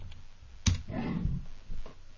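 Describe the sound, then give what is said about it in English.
Someone types on a computer keyboard in a few keystrokes. One sharp, loud click stands out, and softer clicks and rustling follow through the short passage. “Whoops, I better type it into the room.”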